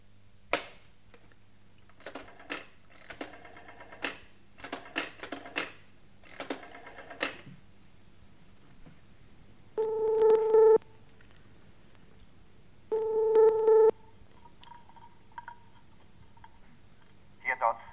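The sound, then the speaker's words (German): A telephone is dialed and then rings: several bursts of rapid mechanical clicking from the dial, followed by two long, loud, steady ringing tones and a fainter tone at the end. “Und ich rief dann Dr. Dodds an.”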